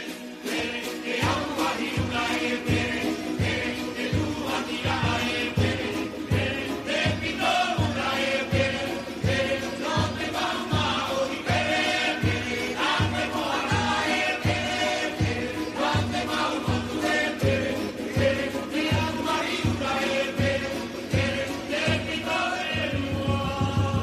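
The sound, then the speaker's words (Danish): Tahitian music with a fast, steady drum pulse under a dense, loud layer of instruments, driving without a break. “Det er lige, hvad man trænger til, sådan en gang Tahiti-musik der på en, på en fredag.”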